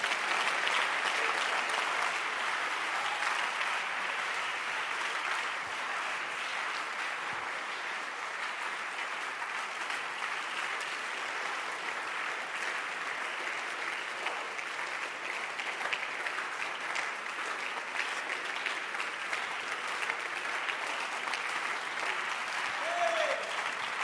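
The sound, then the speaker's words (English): An audience claps hands in dense, continuous applause that stays steady and fairly even in loudness for the whole stretch, with no clear break or lull. “Can you clap your hands?”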